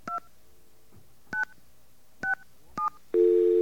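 Telephone keypad tones entering a password: four short, evenly spaced electronic beeps of differing pitch, then a longer steady tone. Clean and alone, with quiet gaps between the presses.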